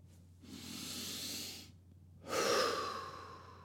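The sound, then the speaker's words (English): Two deep human breaths, a long airy inhale followed by a louder, breathy exhale with a soft hiss, heard alone with a short pause between them. “And I come back into calmness through just a few deep breaths.”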